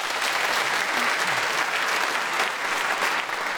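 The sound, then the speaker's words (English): An audience applauds to welcome guests, including a poet and translator: steady, dense clapping that stays loud and even throughout, with no voices over it. “Would you please welcome them all?”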